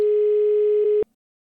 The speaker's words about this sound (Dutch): Ja, je belt in. De winnaar aan de lijn. Oké, laten we wachten. Laten we verbinding maken.